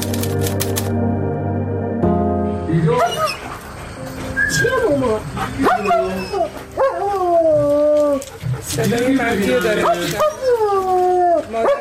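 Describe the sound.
A dog whines and yips restlessly on hearing its owner's recorded voice. It gives many loud, high whimpers whose pitch bends up and down, mixed with short yelps.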